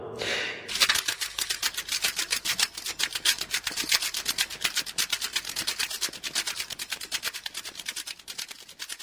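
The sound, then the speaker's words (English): Recording tape runs off the end of a spinning spool, its loose end flapping in many fast, evenly spaced ticks that keep a steady rhythm for several seconds and fade slightly toward the end. “For some reason, the rest of the reel is taken up with a recording of tape running off the end of a spool.”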